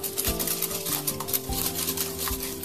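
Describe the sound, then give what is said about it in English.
Whisk beating two eggs with fine sugar in a bowl, making quick repeated scraping strokes against the bowl at a brisk, uneven rhythm. “Now get a whisk and whisk this together until it's well combined.”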